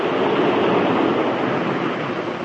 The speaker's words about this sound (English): That was one of the water intakes being opened and shut, that's all.